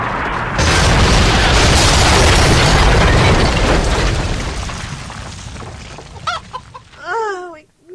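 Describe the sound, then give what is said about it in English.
Plane crash-landing effect: a loud, roaring boom swells and holds for several seconds, then slowly fades into a few clattering knocks. A brief voiced cry comes right at the end. “This is the captain speaking. Everyone brace yourselves for crash landing!”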